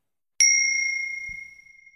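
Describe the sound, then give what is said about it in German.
A single bright bell strike used as a signal marking the start and end of legal text; one clear, high ringing tone that fades slowly over about a second and a half, alone against silence. “Um den Gesetzestext besser von meinen Anmerkungen abgrenzen zu können, haben wir ein Glockensignal eingefügt.”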